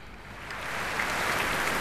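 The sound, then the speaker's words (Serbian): Applause continues at the Royal Albert Hall as the audience waits for an encore, a dense, steady rain-like wash of clapping that swells slightly. “Možete čuti da aplauzi još uvek traju na sceni Royal Albert Halla dok čekamo bis.”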